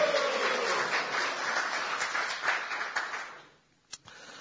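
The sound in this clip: An audience applauds at a baptism, with steady, dense clapping that gradually thins and fades out, followed by a single sharp click in the near-silence.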